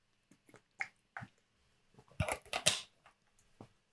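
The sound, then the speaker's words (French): A person takes a small sip of water: scattered soft mouth clicks lead into a short, louder burst of slurping and swallowing, then a final faint click. “Je vais boire un petit coup d'eau”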